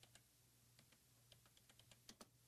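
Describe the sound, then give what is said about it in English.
Typing on a computer keyboard: many soft, irregularly spaced keystrokes tap away faintly over a low steady hum. “Let me just check this real quick. I just typed in Musk fired Yoel.”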